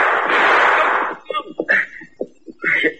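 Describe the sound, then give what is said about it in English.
A gunshot in a Western-style showdown shoots a pistol out of a man's hand. One loud, harsh blast decays over about a second. A short stretch of voice sounds follows. “You shot the guns right out of my hand.”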